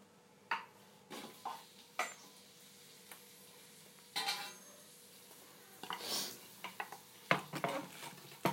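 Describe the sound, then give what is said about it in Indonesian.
Onions being sautéed in a pan: a utensil scraping and knocking against the pan in irregular clinks and clatters, some sharp and some softer, over a low steady background. “Kita tumis dulu bawang bombaynya.”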